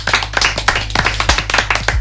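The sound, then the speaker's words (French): A small group around a table clapping for a guest, loud, quick, crisp claps in an uneven rhythm, with a low steady hum underneath. “On peut t'applaudir, oui, comme ça on met pas de blanc bizarre.”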